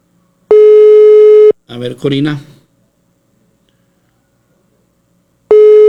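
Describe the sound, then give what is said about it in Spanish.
Telephone line tones sound while a call to a colleague is dialed. A steady, buzzy tone lasts about a second, a short bit of talk follows, then a quiet pause, and a second identical tone begins and is cut off at the end. “en Torres Centinela, déjeme marcarle aquí a mi compañera, déjeme un segundo.”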